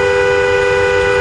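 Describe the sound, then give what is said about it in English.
A car horn heard from inside the car gives one steady, loud, continuous blare that holds at an even pitch and level throughout, with no other sounds. “this is the sound of a car horn from inside a car.”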